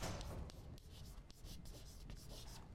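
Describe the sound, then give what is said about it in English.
Someone writes by hand, producing faint, scratchy strokes in a series of short bursts that continue throughout with no talking. “I like to write this down”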